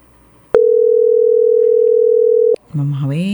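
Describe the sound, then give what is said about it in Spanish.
A telephone dial tone sounds while a call is being placed: one steady, unchanging tone that holds for about two seconds and then cuts off. A voice begins speaking right after it. “Llegó el momento de hacer otra llamada ganadora y vamos a ver quién será.”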